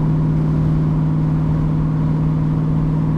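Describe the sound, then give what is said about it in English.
Car engine running at about 2400 RPM on a highway, a constant low drone with no clear change in revs. “Let me downshift here.”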